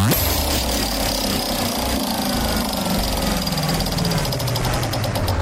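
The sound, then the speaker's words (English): A prize wheel spins on a game segment, giving off rapid, even ticking that runs throughout over a dense, noisy background. “Want to give the wheel another spin?”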